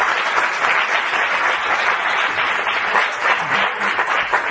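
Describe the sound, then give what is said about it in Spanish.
An audience applauds at a conference: a dense, steady wash of many hands clapping that stays loud and even throughout, with no voices standing out. “Por tanto, un aplauso a Antonio Pastor y comenzamos.”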